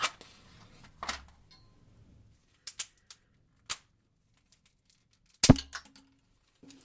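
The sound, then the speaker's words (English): Small wood fire of twigs and sticks crackling, with sparse, sharp pops and snaps scattered over a near-silent background and one louder crack near the end. “I'm going to pile up these little bits of twigs and stick, get the fire going”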